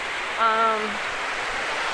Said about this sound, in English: At the top, there's this line of gurgling places where the water gurgles up.